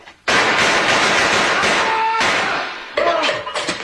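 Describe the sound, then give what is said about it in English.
Gunshots in a radio drama shootout. A sharp, loud volley of rapid cracks erupts and runs for about two seconds, then a second, shorter burst follows with quick, decaying bangs. “Nice shooting, Sergeant.”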